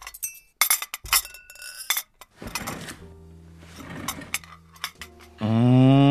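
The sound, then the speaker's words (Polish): Dishes and cutlery clink as eggplant-sauce pasta is served at a home dinner: a quick run of bright, sharp clinks, then softer scraping and clattering. “Siadaj, nakładam makaron.”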